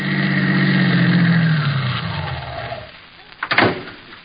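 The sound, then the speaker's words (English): A car driving up, made as a sound effect for a radio drama: a steady mid-pitched engine hum slows and drops in pitch as it fades away, followed by a brief clatter near the end. “Bartley and Melissa, drive up. Sound.”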